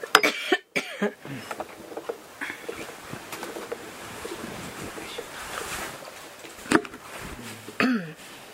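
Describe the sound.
Coughing and throat-clearing from someone on a raised platform struggling to bring up phlegm. A few sharp, rasping bursts stand out among quieter breathy noise, with one near the start and two more toward the end.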